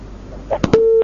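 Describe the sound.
A telephone line clicks a few times after a call is cut off, then a single steady busy-signal tone sounds, mid-pitched and clear, before stopping abruptly.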